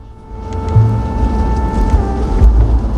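A car driving on: a low engine rumble with a steady whine above it, loud and continuous, swelling slightly after the first second, no voices heard.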